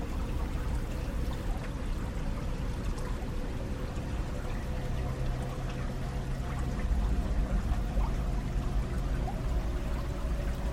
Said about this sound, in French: cette étendue d'eau, dont le courant calme passe devant vous.